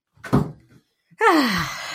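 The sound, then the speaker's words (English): A door being shut: first a dull, short thump, then a louder creaking groan that slides downward in pitch and trails off. “Shut the door.”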